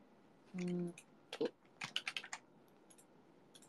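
Light keystrokes on a computer keyboard: a quick run of several soft clicks and taps, preceded by a brief steady tone, all fairly faint.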